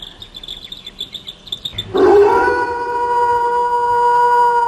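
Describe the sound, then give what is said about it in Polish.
A wolf howls in a long, steady, tonal cry that starts partway through and holds to the end, preceded by rhythmic high chirping. “No dobrze, to jest wilk.”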